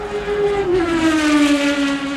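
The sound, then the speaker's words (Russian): Race cars speed past a grandstand, their engines making a loud, steady whine that drifts slightly lower in pitch as it goes on. “Вот одна промчалась. Еще одна. И еще. Сколько машин гоняется.”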